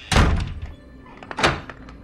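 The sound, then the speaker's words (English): A closet door slammed shut, giving two dull, heavy thuds about a second and a half apart against a quiet background. “slams the closet door shut.”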